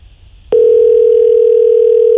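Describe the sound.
Telephone dial tone on a call placed to leave a voicemail: a single steady, unbroken tone switches on after half a second of quiet and holds at an even loudness to the end, with no talk.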